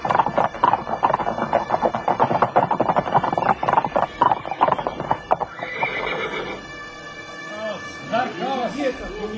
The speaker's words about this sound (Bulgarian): Велики Барка, ето ги моите конници, аз ти ги водя. Твои са.